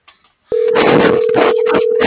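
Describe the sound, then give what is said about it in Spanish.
A steady telephone tone sounds while a number is dialed and nobody answers. After a brief quiet start, a continuous mid-pitched tone holds at an even level over a noisy, crackling background. “Estoy marcando y no me contesta.”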